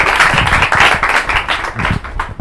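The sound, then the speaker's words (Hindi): Applause from an audience at a Christian worship gathering: loud, dense clapping with rapid overlapping claps that surge and ebb for a couple of seconds, with no talk over it. “यीशु मसीह के लिए जरा जोरदार तालियां दीजिए।”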